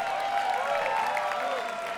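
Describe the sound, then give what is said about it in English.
Audience applause for an opening band at a live concert, a continuous wash of clapping with some crowd cheering mixed in. The sound stays steady and fairly loud, without pause, throughout the two seconds. “Give a big round of applause for them.”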